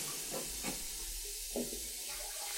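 Onions sweat in a pan with a constant soft sizzling hiss, a few faint bumps rising briefly from the quiet frying noise.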